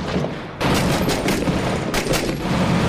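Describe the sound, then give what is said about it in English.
Gunfire rattles in the video game Six Days in Fallujah as an enemy fires from a building across the way. A dense, loud stream of overlapping shots starts abruptly after a short quieter lead-in and keeps going without a break. “He's shooting at you.”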